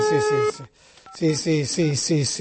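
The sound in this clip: Telephone keypad tones sound as a number is dialed to call someone back, with a few short electronic beeps, a brief gap and then more tones.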